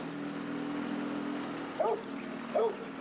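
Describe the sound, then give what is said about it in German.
A low, steady engine drone comes from a large Spreewald barge carrying a farmer's tractor through a village waterway. Two brief, higher chirping sounds rise over the drone near the end. “Spreewaldbauer Sebastian bringt seinen Trecker zur Wiese, natürlich auf dem Kahn.”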